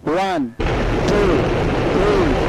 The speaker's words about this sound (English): India announced on Thursday that it had successfully tested a new nuclear-capable missile that would give it the capability of launching an intercontinental strike.